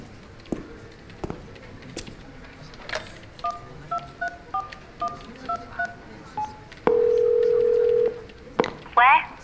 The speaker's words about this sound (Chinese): 到前台打个电话问问吧。